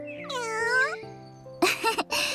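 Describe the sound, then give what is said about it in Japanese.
A stray cat meows a few times: a long, wavering, high-pitched meow, then shorter, sharper cries after a brief pause, with no talking. “遊んで欲しいみたいね。ねえ、この野良猫どう思う？”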